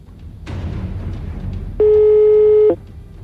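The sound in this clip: A phone call's ringback tone sounds once, a steady, loud electronic hum lasting under a second. Before it, only faint background noise is heard.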